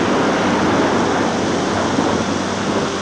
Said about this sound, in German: wie drei Giftfässer durch die Wasseroberfläche brachen und weiße Gischt zum Himmel spritzen ließ.